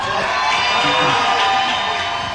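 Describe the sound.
A crowd cheers at a rally for a Democratic Senate candidate in Texas, a loud, sustained wall of cheering, whooping and shouting with no break.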